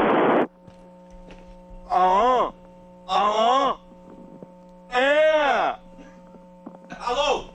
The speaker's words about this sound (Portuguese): Olha lá, acho que o fã já tá soprando lá, ó.